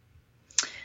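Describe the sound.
A single sharp click from a computer mouse, made while selecting a design template in a web app, stands out briefly and alone against a near-silent background.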